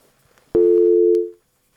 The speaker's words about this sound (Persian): بله، یک تماس قطع شد.